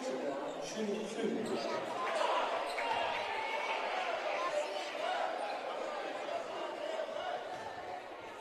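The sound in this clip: A basketball bounces faintly a few times at the free throw line during the fourth quarter of a high school game, under steady crowd murmur and a commentator's voice.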